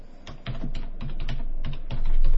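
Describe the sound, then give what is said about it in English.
Computer keyboard typing as a search query is entered, a rapid run of many sharp keystrokes at a fairly even rhythm, heard alone. “I have typed in Northwoods and hit search.”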